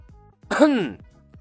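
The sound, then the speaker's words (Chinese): A man gives a single cough, a voiced throat-clearing sound whose pitch slides downward, fairly loud against near silence. “李牧再次咳嗽了一声”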